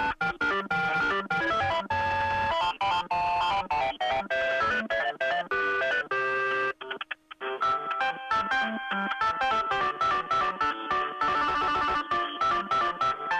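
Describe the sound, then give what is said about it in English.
Video game music plays down a telephone line: busy, bright electronic melody tones at steady loudness, broken by a brief dropout partway through before the tune resumes. “From Super Mario Brothers. I think it might be Super Mario 2. Yeah, that's Super Mario 2. That's the one where you pick up the vegetables and throw the vegetables at the bad guy.”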